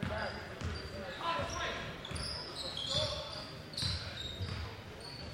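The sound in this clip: A basketball dribbled up the court by a player during a La Salle versus Malvern Prep game: steady, rhythmic bounces under continuous commentator talk and crowd noise.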